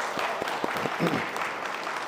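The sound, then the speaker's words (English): An audience claps in praise of God at a church service, welcoming a family's newborn child; soft, continuous clapping with a few sharper claps standing out. “So, those are claps praising God for that.”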